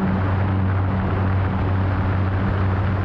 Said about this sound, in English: In May of 2020, they flew this Cessna Caravan retrofitted with one of their motors.